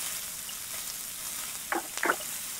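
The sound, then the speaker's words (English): Olive oil sizzles and splashes in a personal electric frying pan. A steady bright hiss runs throughout, and two sharper spattering bursts come near the end. “I thought this would be deeper, so I thought the olive oil would not be splashing as much as it is.”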